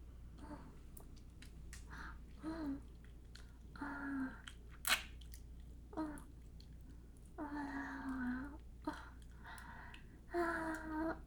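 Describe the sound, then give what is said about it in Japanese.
Wet licking of fingers and other mouth sounds, with many soft smacks, clicks and slurps at an uneven rhythm, mixed with brief murmured vocal sounds, all fairly quiet. “指舐めるね”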